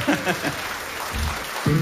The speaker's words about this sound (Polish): Brawa dla was.